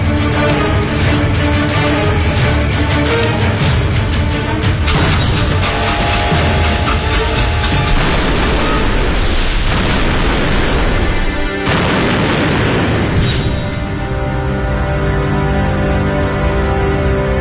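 Dramatized blast of explosives by a railway line beside a cornfield where a train passes, a loud continuous roar of rumbling, crackling noise that fills the whole span without a break and shifts in texture partway through.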